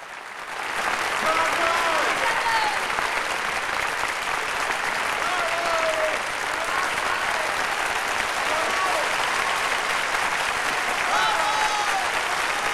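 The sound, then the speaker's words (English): Theatre audience applauding as the cast takes its bows at the curtain call: loud, dense and sustained clapping that barely varies, with a few faint calls and whistles rising above it. “An actor goes back on stage to join the rest of the cast, taking their bows.”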